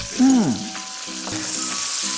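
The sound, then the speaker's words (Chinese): Bamboo shoots and cured pork stir-fried in a wok with seasonings sizzle steadily, with a louder hissing burst near the start as the food is tossed, then a constant crackling fry throughout. “翻炒。好啦，我们香喷喷的出锅了。”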